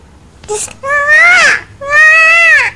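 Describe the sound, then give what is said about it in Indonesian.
A young child crying: a brief high squeal, then two long, loud wailing cries separated by a short pause. No one speaks. “Ini adeknya nangisnya. Adek mau apa sih?”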